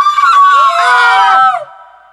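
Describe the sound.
A young princess shrieking when her dress is stepped on, voiced by a performer: one high, piercing, sustained shriek lasting over a second, dropping in pitch as it tapers off.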